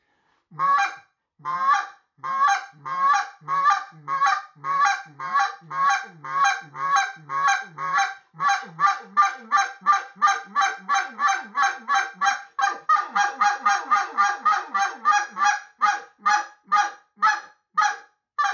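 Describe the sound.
Exit-style calling blown on a goose call: many sharp, rapid honks in a steady rhythm, alone and fairly loud, the spacing tightening in the second half so the calls come faster.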